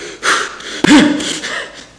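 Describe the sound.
A voice imitates heavy, angry breathing: a few harsh, breathy huffs and gasps, with one throatier, voiced exhale in the middle, loud and with no talk.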